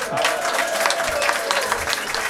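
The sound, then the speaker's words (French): Audience applause fills the room as blues performers take the stage at a café concert, dense steady clapping that holds at an even level from start to finish. “Debbie Bond, Eric Asherson sont sur la scène maintenant pour votre plus grand plaisir et sous vos applaudissements.”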